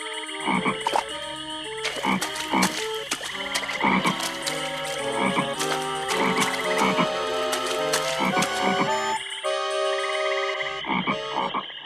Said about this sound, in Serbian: I, dok šiban strahom kroz noć gluvu na obalu stiže, u duboku vodu sa okolnih strana iskakaše žabe iz granja.